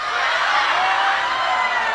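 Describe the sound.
Studio audience shouting at a caller: a dense, steady roar of many voices that holds at one level for about two seconds, with no single voice standing out.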